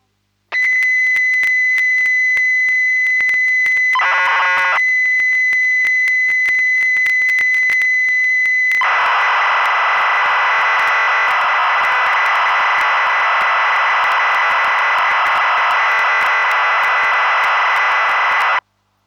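Famicom BASIC program data for a UFO game loading from cassette tape: a steady, piercing high tone, a brief warbling burst, then a loud, harsh hissing data screech for about ten seconds that cuts off abruptly.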